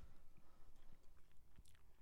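Someone chews and bites into a meat stick: soft, crunchy, moist chewing in quick irregular bursts, quite faint, with no talk.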